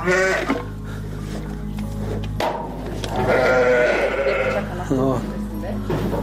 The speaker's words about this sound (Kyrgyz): Чүйдүн беш көрүк айылындагы Бакыт Асымбаевдин чарбасында арашан асыл тукумундагы 53 акты кой бар